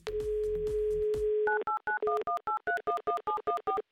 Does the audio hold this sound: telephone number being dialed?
yes